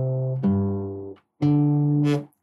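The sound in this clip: A guitar bass line: a few low, plucked notes that each sustain and slowly decay, separated by brief gaps of silence.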